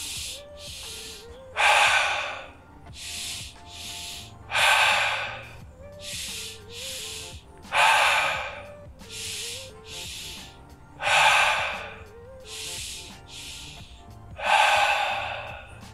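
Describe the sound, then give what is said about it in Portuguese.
Deep breaths during a breathing exercise, with air let out in long, hissing exhales. Five strong exhale bursts come at a regular pace, with softer breaths between them. “Deixa sair o ar, essa foi a última. Vai dando é a última. Fica um pouquinho sem ar.”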